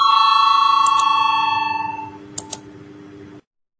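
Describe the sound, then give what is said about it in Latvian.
A bell rings in the Latvian parliament to call a vote: one sustained bright tone with strong overtones that fades over about two seconds, two faint taps, then an abrupt cutoff. “Lūdzu zvanu, balsosim par 104. satiksmes ministra Linkaita priekšlikumu. Lūdzu balsosim.”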